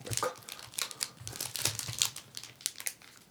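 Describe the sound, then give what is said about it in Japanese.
Crinkling plastic wrapper on a Hokkaido snack of caramel and gorgonzola langue de chat cookies being torn open, a busy run of many sharp, irregular crackles and rustles, fairly loud and heard alone. “北海道のお菓子やね。 美味しそう。 食べる。 じゃあせっかくなんでちょっといただこうかな”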